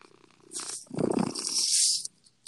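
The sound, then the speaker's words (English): A female cat purring: a soft, rhythmic low rumble mixed with breathy hiss that swells, holds steady, then stops. “Okay, let me see if I can get her purring.”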